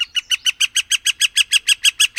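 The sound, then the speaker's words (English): Call of a northern flicker woodpecker: a rapid, evenly spaced series of many sharp, high-pitched notes, steady in loudness and rhythm. “Our most commonly seen woodpeckers are northern flickers”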